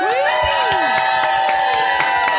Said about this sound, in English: I like that you say whatever location you're in, and everybody's like, yeah, like Atlanta! Woo!